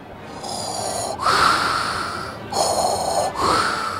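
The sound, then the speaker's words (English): Heavy wheezing breath, slow and rhythmic, with rasping inhales and exhales that swell and fade in a few cycles, loud and with no talk. “I'm wheezing.”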